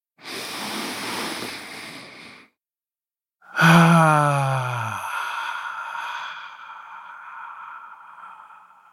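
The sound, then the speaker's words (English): A deep breath is taken alone: a long, airy inhale, a brief silence, then a longer, louder exhale that fades slowly. “let's take a deep breath.”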